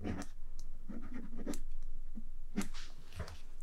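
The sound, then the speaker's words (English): Pen scratching across paper as someone writes out January planning notes, a series of short, soft scratchy strokes with small pauses between them. “Like this. And let's write.”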